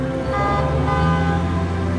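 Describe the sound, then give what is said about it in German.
A loud, steady car horn blares from tuned-up cars with flashing light rigs and high-tech stereo systems as seven cars pull up one after another at an art festival in Weimar. The rich, harmonic tone holds without a break. “7 Autos fahren hintereinander vor.”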